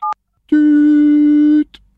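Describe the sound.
Telephone tones as someone calls the town hall: a short dialing beep, a brief pause, then a long, steady, low tone lasting about a second.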